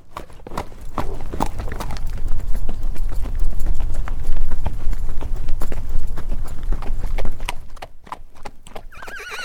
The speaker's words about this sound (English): Now here is an energy of movement, of running, of the earth being pounded by hooves.